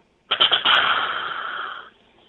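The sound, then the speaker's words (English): A deer snort-wheeze blown on a game call: a few quick, breathy puffs, then one long hissing rush of air that holds and fades away. No talk is heard. “That's how you do the snort wheeze.”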